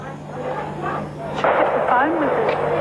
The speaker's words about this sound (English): What's that? Gunshots.